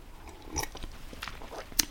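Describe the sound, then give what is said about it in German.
A quiet sip of cold tea, heard as a few faint wet mouth clicks and soft slurping noises with no talking. “Mein Tee ist jetzt mittlerweile kalt, aber ich nehme trotzdem einen Schluck.”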